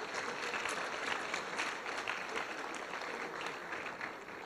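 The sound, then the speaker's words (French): Audience applause for the administrative and teaching teams behind the master's programmes at the École des Ponts: dense, continuous clapping from many hands, steady in loudness throughout with no break. “j'aimerais qu'on applaudisse toutes ces équipes administratives et pédagogiques qui font que ces masters peuvent tenir”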